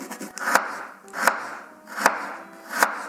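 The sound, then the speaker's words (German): Knife chopping ginger: four evenly spaced, sharp chops, each a crisp percussive strike, with no talk in between. “So, der Ingwer ist geschnitten”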